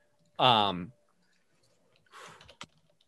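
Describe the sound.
Typing on a keyboard: a short burst of light clicking keystrokes follows a brief voice at the start, then quiet.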